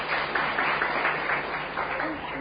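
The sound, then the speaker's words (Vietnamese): Audience applause at a Buddhist teaching session: a steady patter of clapping with regular pulses running through the whole clip at moderate loudness. “Rất hay, các vị cho tràng pháo tay.”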